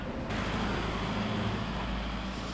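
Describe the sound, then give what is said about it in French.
A truck passes on a street, producing a steady, dense rumble of engine and road noise that holds at an even level throughout, with no talk. “Alors on va attendre que le camion passe.”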